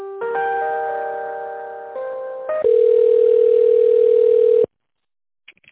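Steady electronic telephone tones play while an office call is put through to an internal extension. The tone shifts pitch a few times, settles into a loud buzzing tone that cuts off abruptly, and then a few faint clicks follow.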